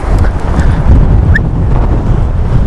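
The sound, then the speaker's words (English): Strong wind out in the Peak District, a loud, continuous low roar buffeting the microphone, swelling in gusts throughout with no voice heard. “My goodness. The wind is literally trying to blow me over.”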